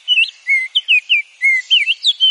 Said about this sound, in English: One is orange and even has an aristocratic name, the Baltimore Oriole.